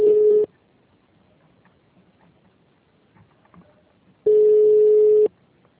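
Ringing tone of a telephone call that goes unanswered: two steady, mid-pitched tones separated by a long quiet pause, the second tone lasting about a second.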